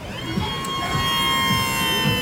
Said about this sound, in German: Und jetzt würde ich dich einmal hochfahren. Das Ganze funktioniert also elektrisch.